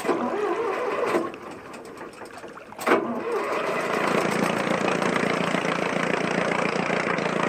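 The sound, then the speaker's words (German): A boat motor on a ship in harbour starts with a sharp burst of noise, then settles into a steady, buzzing drone that continues to the end. “Werfen Sie den Motor an.”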